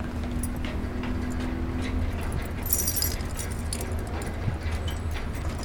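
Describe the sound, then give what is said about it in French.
Keys jangle as someone searches for the right key to a locked way through: faint, scattered metallic clinks with one brighter jingle near the middle, over a low background hum. “Est-ce que j'ai la bonne clé ou moins là ?”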